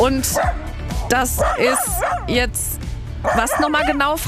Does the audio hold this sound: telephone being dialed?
no